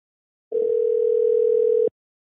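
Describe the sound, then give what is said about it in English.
A single steady telephone tone sounds on a call placed to a motel in Atlanta. It holds one even pitch for about a second and a half, then cuts off cleanly, with silence before and after. “This is where we're going to call motels in two different states, one Atlanta, one in Denver.”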